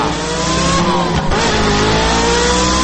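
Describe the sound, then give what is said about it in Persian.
Loud engine roar of an official's luxury car accelerating away, a steady, heavy drone with a slight rise in pitch as it pulls off. “آقای مسئول بدون اینکه پاسخ او را بدهد سوار خودروی لوکس استانداردش شده، گازش را گرفته و”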